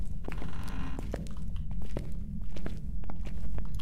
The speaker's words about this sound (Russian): Так, не топай. А. Или это не ты?